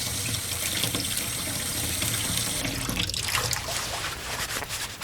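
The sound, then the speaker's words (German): Running tap water splashing into a sink as a single edible leaf, used in place of spinach, is rinsed under it; a continuous hiss whose splashing shifts and grows more broken partway through, with no talk. “Moment, ich wasche mal eins ab und teste.”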